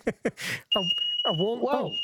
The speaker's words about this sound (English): I've got smoke alarms that get triggered by your voice.